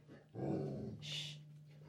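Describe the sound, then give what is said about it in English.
A dog that has just woken from a nap gives a short, faint, gruff bark with a growly low tone, followed by a brief higher-pitched sound. “Apparently my dog is in agreement.”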